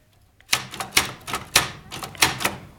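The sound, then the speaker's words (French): A typewriter clacks out a quick run of sharp, bright keystrokes in an uneven rhythm, loud and alone after a brief near-silent start. “Et tu vois, c'est super. Maintenant, j'ai une machine à écrire.”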